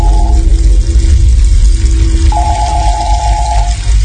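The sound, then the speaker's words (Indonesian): Water runs from a tap in a toilet room with a steady, loud rushing that holds even throughout, with no voices. “Aku mematikan keran air.”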